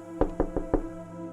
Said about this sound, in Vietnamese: Tiếng gõ cửa vẫn không ngừng kêu lên.